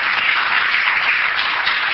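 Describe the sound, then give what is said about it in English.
Audience applause for a speaker's story, a dense, even clatter of many hands clapping, steady and loud from start to finish with no single voice standing out. “so I think we should give him an applause”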